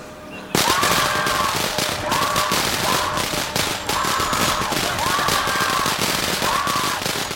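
A lit string of firecrackers, thrown over the top of an outhouse door, goes off in a dense, continuous barrage of sharp, rapid pops that stays loud throughout.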